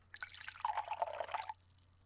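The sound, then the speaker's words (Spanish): Water poured into a glass, a faint trickling and dripping splash that lasts about a second and a half and then stops. “Mira, te traje agua. Voy a servirte un poco.”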